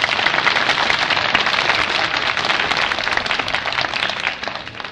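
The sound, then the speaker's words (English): Audience applause for a singer: dense, steady clapping fills all five seconds at a loud, even level, thinning slightly at the very end. “Isn't it a lovely voice? Let's give her another hand.”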